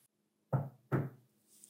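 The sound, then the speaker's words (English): Two heavy knocks sound on an apartment door, low and booming, evenly spaced, with silence around them. “He could not see a thing, but he heard someone knocking at the apartment door.”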